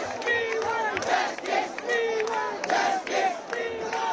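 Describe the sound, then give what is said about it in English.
A protest crowd chants in unison in Delhi at a youth-led Cockroach Movement demonstration, repeating a loud rhythmic slogan in steady phrases without pause. “Sounds of defiance organised by the youth-led and memorably entitled Cockroach Movement, the CJP.”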